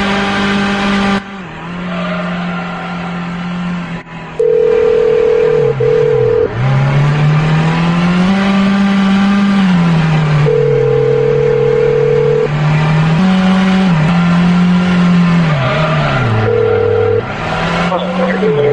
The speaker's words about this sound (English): Let me load up my sound effects of the car driving.